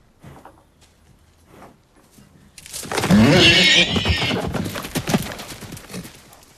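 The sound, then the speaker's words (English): A horse bursts into a gallop out into a yard, faint shuffles giving way to loud, rapid hoofbeats with a whinny riding over them, before the hooves fade somewhat. “Suddenly, Tom flicks the rope at Pilgrim's rump, and the horse gallops out into the yard.”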